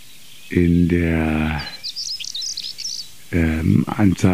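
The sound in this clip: A songbird sings one short, high, chirping strophe. The bird perches in an exposed spot on last year's leftover perennial stalks or low hedges. The strophe sits alone between stretches of deeper voiced talk before and after it.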